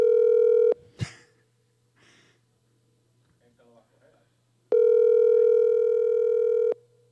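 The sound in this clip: Steady, buzzy telephone dial tone that stops with a sharp click, followed by several seconds of faint rustling and handling noise over a low hum, before the tone returns for about two more seconds.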